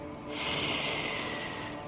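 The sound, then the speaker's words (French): A long, slow exhale through the mouth during a relaxation breathing exercise, a soft steady breathy whoosh lasting well over a second, with faint sustained tones beneath. “Et on expire à nouveau longuement par la bouche,”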